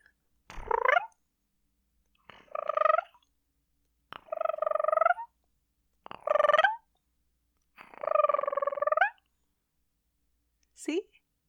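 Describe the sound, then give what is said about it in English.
A person's voice imitates a cat meowing, with five drawn-out, wavering meows spaced a couple of seconds apart and a short, faint sixth at the end, each sounding alone against silence. “it's better when I meow with water. All right, you ready? You're gonna be shocked. You're gonna think there's a cat in the room”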